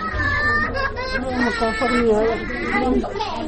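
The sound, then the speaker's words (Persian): Grieving children crying at home after their father was killed in an attack, a sustained mix of wailing and sobbing voices rising and falling over one another. “بیشتر در این مورد در گزارش از جمشید حبیب‌زاده بشنوید که با صدای گریه اطفال عبدالنصیر آغاز می شود.”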